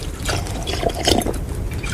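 Water pours with a soft, steady trickle and a few light drips, as if being offered to someone to drink. The noisy splashing runs throughout at a moderate level with no talk over it.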